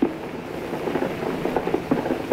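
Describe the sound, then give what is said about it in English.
Wartime machine gun fire while German planes attack low near the French coast, alongside anti-aircraft fire and tracers: a few muffled bursts of rapid popping over a constant hiss, growing more frequent toward the end. “Flares are coming down now. You can hear the machine gunning.”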